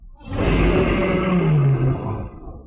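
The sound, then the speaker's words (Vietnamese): A violent roar bursts from a creature fighting in a jungle, one long, deep, growling roar held loud for a couple of seconds, its pitch sinking lower near the end before it fades. “Từ trong rừng rậm vọng ra tiếng gầm hung bạo, có sinh vật đang chiến đấu kịch liệt.”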